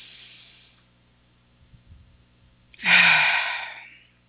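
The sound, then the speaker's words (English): A person takes a deep breath: one loud, rushing inhale that swells abruptly and then tapers off over about a second, after a stretch of near quiet. “So, for example, we could take a deep breath.”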